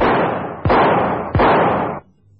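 A few loud gunshots from a handgun fire in quick succession in a radio drama. Each blast hits sharply and trails off in a long, noisy decay before the next.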